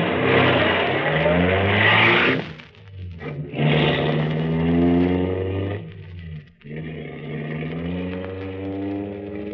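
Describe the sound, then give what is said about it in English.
A car engine revs loudly as the car drives off, its steady droning note dipping twice briefly between surges of power, with no voices. “Let's start driving.”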